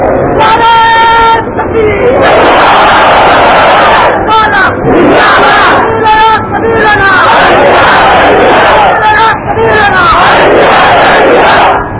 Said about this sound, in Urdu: نام شور کو ہے اور نعرہ بغیر شور کے لگاتے ہیں، اللہ کا نام تو اونچا بلند کیا کرو